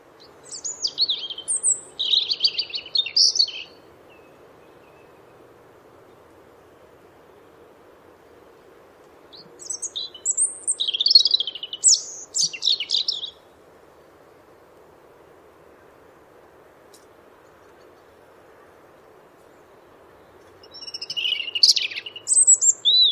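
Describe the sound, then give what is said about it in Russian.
A European robin sings three separate high, thin, warbling phrases, each a few seconds long, with long gaps between them. A faint, steady low rumble runs underneath throughout. “Зарянка.”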